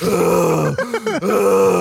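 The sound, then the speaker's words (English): A voice imitates out-of-breath wheezing after running hard to escape a bus, producing drawn-out, strained groaning tones broken by two brief gasping pauses, loud and alone. “And then you got to stand in an alley and catch your breath for 15 minutes, wheezing, going,”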